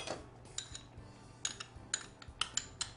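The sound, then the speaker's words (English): Faint clinks of a utensil against a bowl while a hoisin sauce marinade of chili peppers, vinegar and garlic is stirred together, a string of light, irregular metallic taps. “Now I'm going to mix all of my marinade ingredients together. I start with some hoisin sauce, which is a mixture of, it's like an oriental barbecue sauce.”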